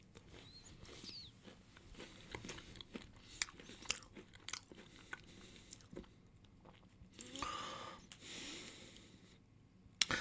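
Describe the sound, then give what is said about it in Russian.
A person eating, with faint, irregular crunching bites and wet chewing sounds, interspersed with soft snorts through the nose, and a slightly louder stretch of noisier chewing near the end. “я что, ем? Как так получилось? Я стрим делал, вдруг ем.”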